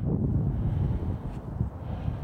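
Winter wind outdoors buffets the microphone with a low, steady, blustery rumble that swells and eases slightly.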